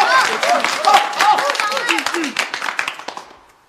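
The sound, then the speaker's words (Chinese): Warm applause at a poetry recitation, many hands clapping briskly while voices call out over it, the clapping thinning and fading away at the end. “大家热烈鼓掌。”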